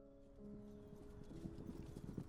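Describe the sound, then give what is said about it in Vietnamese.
Faint horse hooves clip-clopping in a quick, uneven rhythm over a low sustained tone, growing gradually louder as the horse approaches. “Nhưng Mỡ còn chưa kịp chui ra khỏi lùm cây, đã nghe tiếng vó ngựa từ xa xa vọng lại. Những âm thanh lộc cộc phát ra mỗi lúc một gần.”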